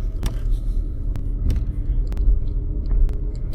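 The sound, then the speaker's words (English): A Lamborghini cruises around a parking lot with a steady low engine rumble. A few sharp clicks and taps cut through it at irregular moments. “Driving around the parking lot.”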